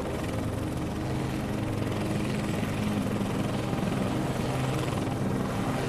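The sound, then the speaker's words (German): Helicopter rotor and engine noise as the craft takes off for a flight over the Nile: a dense, steady drone with rapid blade chop, holding even loudness throughout with no voices. No clear spin-up or change in pitch is evident. “Die Rotorblätter beginnen sich zu drehen. Staub wirbelt über den Boden. Dann hebt ihr ab.”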